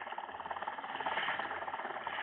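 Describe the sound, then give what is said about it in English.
A small boat's engine putters low and steady as the boat moves slowly through thick fog toward an island off the Cape. The chugging stays even and muffled throughout. “Moving cautiously, a small boat makes its way slowly toward one of the islands off the Cape.”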